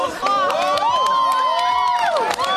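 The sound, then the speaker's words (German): School students cheering at the launch of a giant helium balloon carrying a camera and instruments from an airfield, overlapping excited shouts and whoops throughout. “Großer Jubel beim Start, na klar.”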